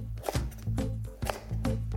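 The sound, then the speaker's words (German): Knife chopping a Hokkaido pumpkin into cubes: a few sharp, evenly spaced cuts land over a steady low hum. “Und ich nehme Hokkaido, den kann man nicht mit der Schale essen. Und der wird als allererstes in Würfel geschnitten.”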